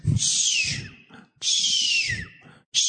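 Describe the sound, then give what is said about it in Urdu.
A human voice imitates a chick's cheep with two long, high, whistly calls that slide downward in pitch, and a third call begins at the very end. “میں نے نا چوزے کی طرح آواز نکالی”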